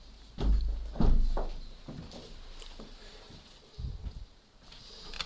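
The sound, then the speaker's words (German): Windows being closed, giving a few dull heavy thunks and knocks: two strong ones close together near the start, lighter shuffling sounds, then another cluster of thuds toward the end. “Wir können die Fenster wieder schließen.”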